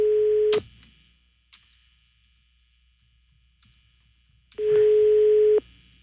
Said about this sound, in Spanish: No contesta. Está sonando, pero no contesta.